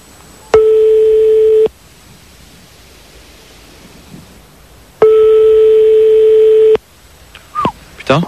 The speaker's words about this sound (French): On est en train de faire le numéro de téléphone donc, de Christine